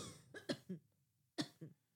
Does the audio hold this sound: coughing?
yes

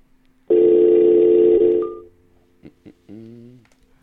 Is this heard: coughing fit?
no

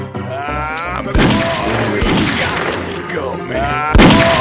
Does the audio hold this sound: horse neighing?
no

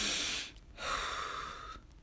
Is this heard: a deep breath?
yes

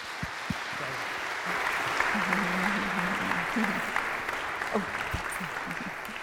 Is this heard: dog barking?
no

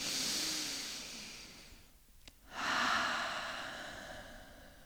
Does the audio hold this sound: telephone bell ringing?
no

